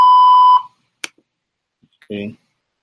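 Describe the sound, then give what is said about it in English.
A voicemail beep after a recorded greeting: one steady, clear electronic tone lasting about half a second, followed by a few faint clicks and a brief burst of voice. “Voicemail. Okay. Voicemail right there.”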